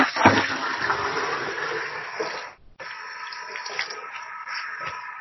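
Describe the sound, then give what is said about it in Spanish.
Running water from a tap as someone washes their hands, a steady rushing splash that cuts out briefly midway, then resumes at a slightly lower, even level. “alguien se está lavando las manos por ahí? lo siento, me habéis pillado.”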